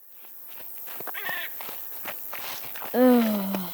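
Footsteps of people hiking uphill to a lake: a few soft steps tread unevenly, then a brief voiced sigh breaks in near the end.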